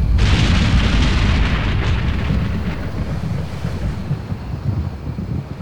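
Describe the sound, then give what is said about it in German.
Deep, roaring rumble of an earthquake, a loud wash of broad noise that is strongest at the start and eases slightly toward the end, with no voices. “Ich schätze, das war ein Erdbeben.”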